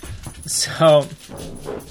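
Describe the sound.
Dogs being trained to do tricks whimper and yip amid people talking, with one short, strong yelping bark standing out and faint whining around it.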